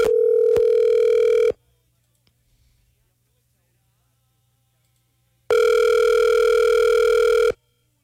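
Ringback tone on an outgoing telephone call: two long, loud, steady rings, each about a second and a half, separated by a few seconds of near silence.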